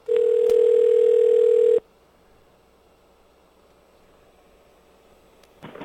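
Steady telephone dial tone as a call is placed from a radio studio line: one loud, constant mid-pitched hum lasting under two seconds, then abruptly cut to near silence, with a faint rustle at the end.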